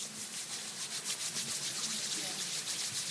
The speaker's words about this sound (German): Jetzt reiben wir die Hände für alle Hörer.